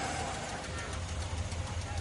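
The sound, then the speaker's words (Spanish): Car engine as a car drives up and stops in a parking lot in a crime drama scene, a steady low rumble mixed with broad hiss, even in loudness throughout. “Jesse se acerca con el coche. Para frente a Mike.”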